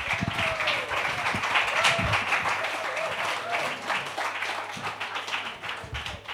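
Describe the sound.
Audience applause at a comedy night: a lively, loud burst of clapping that keeps up throughout, with scattered louder claps and some crowd voices mixed in.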